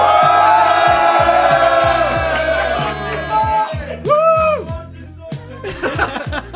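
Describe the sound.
Noisy, drunken audience at a CG Beers event, a loud jumble of overlapping voices, shouts and whoops with bursts of snickering laughter.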